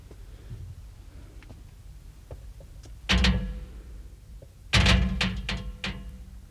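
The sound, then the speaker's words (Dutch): A gate in a dark hollow deep under a mountain is shaken and tugged: two loud bursts of rattling and clanking, with faint clicks and knocks in the quieter stretches around them. “Nee, niet op deze manier. Dat hek krijgen we niet open.”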